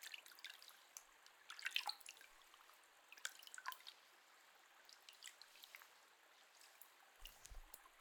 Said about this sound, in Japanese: こうして手でお湯をすくう音も涼を感じますよね。